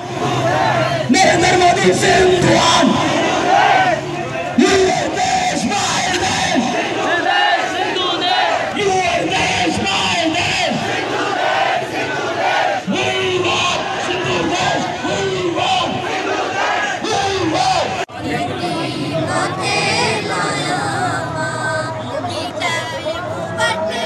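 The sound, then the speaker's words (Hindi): A protest crowd chants slogans for Sindh's separation from Pakistan. Many voices shout loudly and continuously, with a dense babble of yelling and cheering throughout. “और नारे क्या लग रहे थे इस protest में, आपको आवाज़ें सुनवाता हूँ।”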